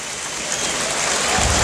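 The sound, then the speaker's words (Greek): Crowd applause in a basketball arena as a player heads to the bench during a game, a dense, even hiss of clapping that swells slightly toward the end. “Ο Θανάσης πάει στον πάγκο, παίρνοντας το χειροκρότημα.”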